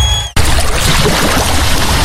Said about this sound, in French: Fermez les yeux, vous entendez la mer, le vent doux sur la peau